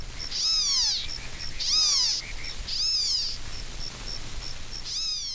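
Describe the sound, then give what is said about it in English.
Four high, rasping, kitten-like mewing call bursts from a black-tailed gnatcatcher, California coastal form, each sliding downward in pitch, with short high pips between them; the calls are faint and spaced a second or more apart. “black-tailed gnatcatcher, California coastal form.”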